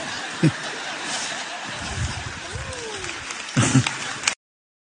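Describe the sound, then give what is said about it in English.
A church audience gives light, scattered applause with a few chuckles over low murmuring. Two brief louder bursts of clapping come, one near the start and one toward the end. “now he does get some applause. So now I don't know if they're applauding because they're uncomfortable.”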